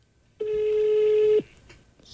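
An outgoing telephone call rings back with a single steady, mid-pitched electronic tone lasting about a second, heard alone against a quiet line.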